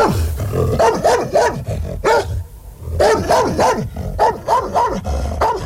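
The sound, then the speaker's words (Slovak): Fierce dog barking with a growling edge: many loud barks in quick bursts, separated by brief pauses. “Podišiel som k ním a zabrechal som, ako najstrašnejšie som vládal.”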